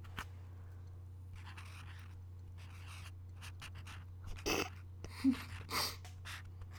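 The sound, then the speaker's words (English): Pen writing a word on sticky notes, a faint series of short scratchy strokes over a steady low hum, growing slightly louder toward the end. “Sticky notes. What words should we write? Sensational. Okay, we're going to write the word sensational.”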